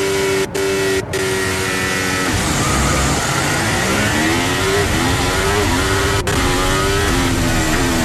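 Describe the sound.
Formula 1 car restarting, its engine a loud, continuous buzzing whine that dips briefly and then climbs steadily in pitch.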